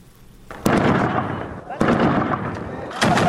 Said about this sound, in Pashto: دا په زابل مرکز کلات کې د افغان ځواکونو او وسلوالو طالبانو ترمنځ د جګړې ډزيدي.